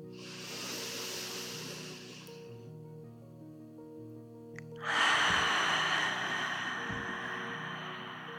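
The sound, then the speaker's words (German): Slow, deep breathing in and out during a guided relaxation exercise: a long airy breath, a pause, then another long, fuller breath, over soft sustained musical tones. “Und geh hier ein paar weitere tiefe Atemzüge noch mehr in dich. Spür die sanfte Brise um dich herum und wie du sie einatmest und auch wieder ausatmest.”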